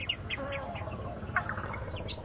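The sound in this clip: Warbler calling, a male that weaves its nest from natural leaves: short, high chirps repeat in a quick, uneven series over a low, steady background noise.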